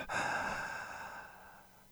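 A single deep breath taken during a guided breathing exercise. It starts abruptly, then fades steadily over about two seconds, with no talk over it.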